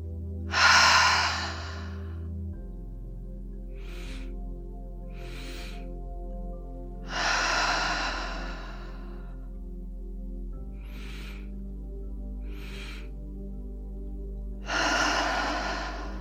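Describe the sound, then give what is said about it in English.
Breathing exercise in which two short, sharp nose inhales are followed by a long, breathy exhale through the mouth. The pattern repeats: three exhales, with two pairs of quick sniffs between them, over a soft steady drone. “technique where you'll breathe in twice through the nose and exhale out the mouth. It goes like this.”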